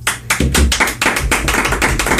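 People clap in a quick, uneven burst of sharp, loud hand claps that lasts about two seconds, with no talking over it.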